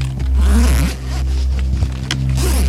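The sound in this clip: A suitcase zipper is pulled open in a few long, raspy strokes over a steady low hum.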